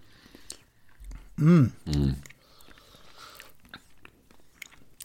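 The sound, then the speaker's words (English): A spoonful of runny, Ambrosia-style custard is tasted with faint wet mouth sounds and two short, voiced appreciative hums, then soft smacking. “I'll give it a bit of a stir. It's not as thick as the Ambrosia Deluxe. A bit runnier. Seems to be a little bit lighter in colour as well, so let's have a little taste of that.”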